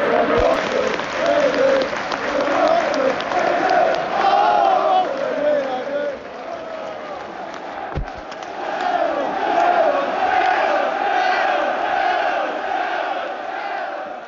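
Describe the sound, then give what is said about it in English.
Oxford United supporters making loud crowd noise at Newcastle's ground, a sustained roar of chanting and singing voices that rises and falls in waves, broken by a single sharp thud partway through. “Loads of Oxford fans turned up, which is great. In the last pod, we said the Oxford fans were quite quiet. So the atmosphere is really good. I think it kind of helps. We were walking up to the very top of the ground. And the noise.”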